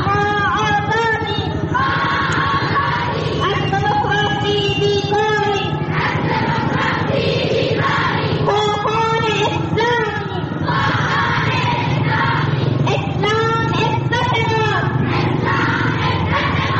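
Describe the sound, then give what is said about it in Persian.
Dozens of women chant loudly at a pro-Taliban rally in Zaranj, Nimruz. High massed voices repeat short rhythmic slogans in steady succession, shouting together without a break. “این صدای ده‌ها زن در شهر زرنج مرکز ولایت نیمروز به حمایت از طالبان است که هفته گذشته راهپیمایی داشتند.”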